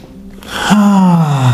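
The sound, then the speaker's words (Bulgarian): A deep breath drawn in, then let out as a long, voiced exhale like a low humming sigh that settles slightly lower in pitch, during a guided breathing exercise, with no talk. “Отново направи 3 дълбоки вдишване и издишване.”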